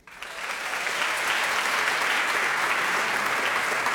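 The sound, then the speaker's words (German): A studio audience applauds loudly to welcome a second guest, an author, onto a talk show. The clapping swells quickly from a quiet start and then holds as a dense, steady roar. “Und nachdem sie so laut applaudiert haben, können sie eigentlich direkt wieder weitermachen. Und zwar für meinen zweiten Gast, Tara Luise Witwer.”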